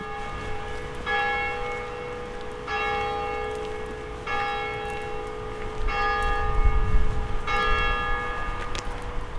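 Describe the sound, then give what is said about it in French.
A church bell tolls six o'clock with slow, evenly spaced strikes about every one and a half seconds. Each strike rings on in a long sustained hum over a low background rumble. “Il sonne 6 heures à JV.”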